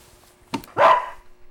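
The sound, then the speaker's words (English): A dog gives one short, loud bark, preceded by a brief faint click, with quiet before and after. “Come near me, dog beast, and I'll wear you as a hat.”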